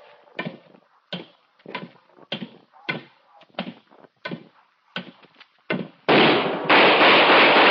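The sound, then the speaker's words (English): Gunfire in a radio crime drama: a rapid series of sharp, cracking shots with short gaps, followed by a loud, sustained rush of noise. “Good shot, Dollar.”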